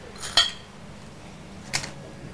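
A spoon and other cutlery clink against dishes during a meal: two sharp, bright metallic clinks spaced more than a second apart, with a quiet, steady background between them and no talking.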